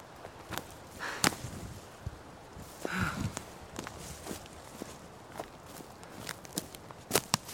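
Someone walks at 2 a.m. with an irregular series of footsteps: soft scuffs and thuds with a few sharper clicks, and no voices.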